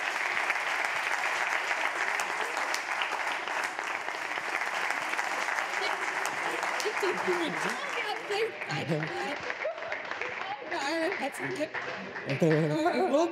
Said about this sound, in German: Einmal großen Applaus an die berufliche Schule Biedenkopf.